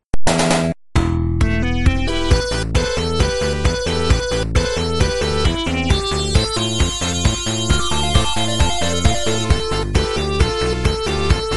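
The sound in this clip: Video game level music: a loud electronic tune with a regular pulsing beat and sustained melodic lines. A short gap breaks the opening second, and then the music plays steadily throughout.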